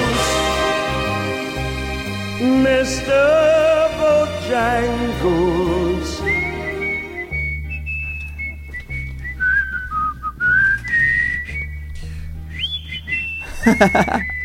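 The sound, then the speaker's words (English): A person whistles a melody live in a studio. Notes slide and waver through a varied line and settle into sustained high tones near the end, loud and clear. “He whistles up there. I can't hit those with my whistle.”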